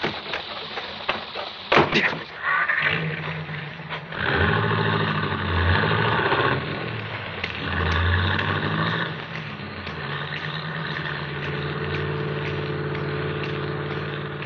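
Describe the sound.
A car door thuds shut, then the car's engine rumbles and runs, its tone shifting a little as it revs in a tense radio drama scene.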